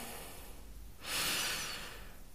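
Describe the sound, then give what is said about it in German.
A single deep breath is drawn into the belly as one soft, rushing inhale through the nose. It swells for about a second above a faint steady hiss, then eases off. “Und atme erstmal tief in den Bauch ein”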